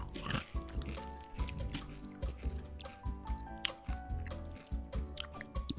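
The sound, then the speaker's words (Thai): Crunchy cornflake snack mixed with nuts being eaten dry without milk, giving many crisp, crackling chewing bites in a steady, repeating rhythm at a moderate level. “จริงเหรอผมนึกว่ากินคอนเฟกต้องกินกับนมมาตลอดเลยเนี่ย กรอบมาก”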